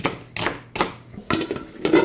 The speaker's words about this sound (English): I'm going to chop up some onions.